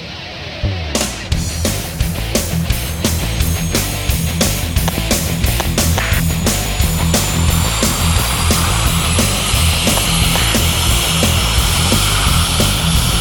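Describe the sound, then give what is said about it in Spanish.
A propeller airplane engine roars during takeoff, a loud, steady droning hum with rapid regular pulsing that swells in the first second and then holds strong, with no voices. “Viento 90 grados. Nave del Rock 001, autorizado despegue.”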